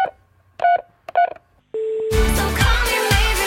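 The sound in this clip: A telephone number being dialled: a few short touch-tone beeps, then a steady tone, after which music begins.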